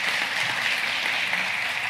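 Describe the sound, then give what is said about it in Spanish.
A church audience clapping loudly in praise during a sermon: a dense, continuous patter of many hands lasting under two seconds. “Dale un aplauso a Dios bien fuerte.”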